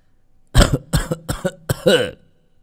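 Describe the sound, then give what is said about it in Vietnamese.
A man who had been lying unconscious suddenly breaks into violent coughing: a rapid run of several harsh, chesty coughs in quick bursts, the last one more drawn out and raspy, with no other sound around them. “ông Dũng đang bất tỉnh nhân sự bỗng ho lên sù sụ”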